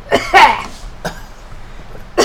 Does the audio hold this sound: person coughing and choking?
yes